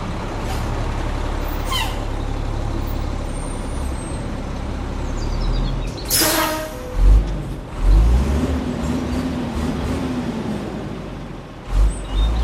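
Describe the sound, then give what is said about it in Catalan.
A tractor-trailer truck with a second-hand cab and a very large grey metal box trailer about 12 metres long rumbles steadily. A sharp air-brake hiss bursts out midway, then the engine surges and revs unevenly toward the end. “El camió del Martí és un tràiler. La cabina és vermella i té un remolc, una caixa gris metàl·lica, molt gran”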